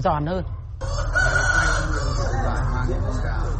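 A rooster crows and chickens cluck, with wavering harmonic calls at the start giving way to a steady, busy layer of overlapping bird calls that runs to the end.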